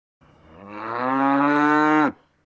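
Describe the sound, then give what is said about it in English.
A cow gives one long, loud moo lasting about two seconds. It starts low, swells to a full, steady bellow and then cuts off sharply, alone and with no other sounds. “Cow.”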